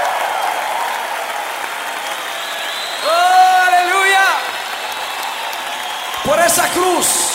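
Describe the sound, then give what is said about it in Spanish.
A church audience applauds in a dense, steady wash of clapping, broken by two bursts of raised, shouting voices. “Dale fuerte el aplauso a Jesús.”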